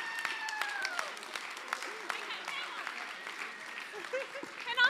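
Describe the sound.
A church audience at Melbourne Lights Church applauds a welcome for a guest speaker: steady, dense clapping with voices and tonal sounds over it, swelling louder at the very end.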